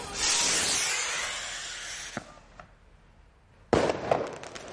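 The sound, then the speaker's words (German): A firework rocket launches from a bottle with a loud rushing hiss that lasts about two seconds and slowly fades. A couple of faint pops follow, then a sharp, crackling burst near the end. “Ja. Gar nicht so schlecht. Die ist jetzt auch sofort losgeflogen. Ja, genau. Aber was macht man denn, wenn die Rakete nicht losfliegt und einfach in der Flasche bleibt?”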